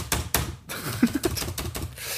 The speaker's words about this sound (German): Was machst du da? Ich tippe was ein.